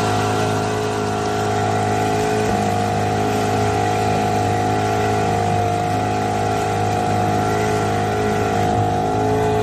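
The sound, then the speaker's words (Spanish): A fishing boat's motor on Lake Malawi drones steadily and loudly throughout, a constant low hum with layered tonal harmonics and no pauses. “Este es el sonido del motor de una barca de pesca en el lago Malawi.”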